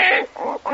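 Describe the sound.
A voice imitates a baby grunting like a pig, with three short, throaty grunts in a quick, uneven series, each loud and snorting.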